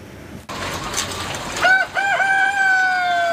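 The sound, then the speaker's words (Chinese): A rooster crows in an egg breeder chicken farm. Its loud, harmonic call wavers at first, then holds steady over constant background farm noise. “在石家庄的蛋种鸡养殖场，一台巡检机器人已经上岗，它沿着鸡笼缓缓移动，每经过一笼鸡都要打量一番。”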